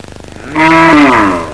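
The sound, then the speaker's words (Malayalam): A cow moos, calling for water: a single loud, long, low-pitched call of about a second, rich in harmonics and holding a steady tone that dips slightly before it fades, heard alone. “ആ പശുവിന് ഇച്ചിരി വെള്ളം കൊണ്ടുപോകണം എത്ര നേരമായിട്ട് കിടന്ന് വിളിക്കുന്നു”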